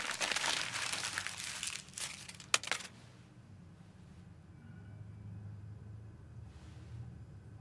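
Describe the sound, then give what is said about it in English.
Crackling crinkle of a paper letter being screwed up by hand, a dense burst of rustling for about three seconds, then a faint steady low hum. “Her excitement fades, and she screws up the letter.”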